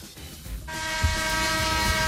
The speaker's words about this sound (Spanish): Toca la bocina que te despacho ya.